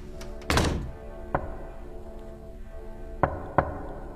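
Knocking on a door at the back of a house at midnight: a few dull, separate thuds spaced unevenly, fairly faint, with quiet between them.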